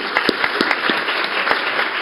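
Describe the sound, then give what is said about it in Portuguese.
Audience applause, a dense wash of many hands clapping at an even, fairly loud level, with sharper individual claps standing out and no voices. “E eu peço uma salva de palmas para vocês, porque elas merecem.”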